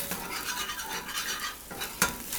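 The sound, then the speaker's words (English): Curry paste and coconut milk being stirred in a pan, a steady wet scraping and swishing with a soft sizzle, continuous throughout and joined by a couple of sharper scrapes near the end. “a couple of tablespoons of coconut milk in each pan and a couple of tablespoons of the curry paste. Not quite 1-to-1, a little more paste to milk. So I'm stirring the blended one.”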